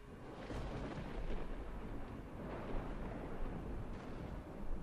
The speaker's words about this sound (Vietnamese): Tiếp theo đó là tiếng sấm nổ đi đùng trên không trung, như đang xóe tạc bầu không khí tịch mịch miền sơn cước.